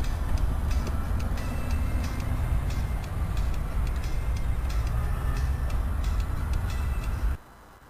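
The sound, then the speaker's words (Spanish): A train passing as a continuous heavy rumble with faint rhythmic clacks running through it, then dropping off abruptly near the end. “Va ahí viene el tren. Me pongo al medio del tren, ¿no?”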